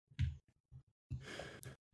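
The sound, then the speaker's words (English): A person's yawn: a drawn-out, breathy, voiced exhale lasting over half a second, preceded by a brief low vocal sound and a few short soft noises. “Oh, you're yawning. Yeah, sorry. You look like you're in pain for a second.”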